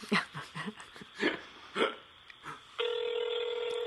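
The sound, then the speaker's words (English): A few bursts of voices come first, then a steady electronic telephone tone starts as a call is placed and holds unbroken to the end. “We'll call. I'm calling him.”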